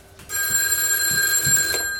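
A telephone bell rings in one sustained, bright metallic burst that starts abruptly after a brief quiet moment and holds steady to the end.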